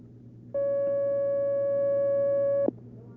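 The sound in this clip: A steady, mid-pitched telephone line tone sounds as an incoming call is taken, holding evenly for about two seconds before cutting off with a brief click over faint background hiss.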